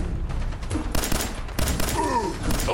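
Pistol gunfire in a video game, with a few sharp, loud shots cracking out over a dense, steady bed of game sound.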